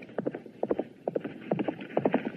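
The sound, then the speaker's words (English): Horse hooves clip-clop as a rider comes through a Western frontier town street, moderately loud hoofbeats falling in quick repeating clusters with a steady rhythm. “Sheriff Holster went out into the street where he saw hateful Jake riding through town.”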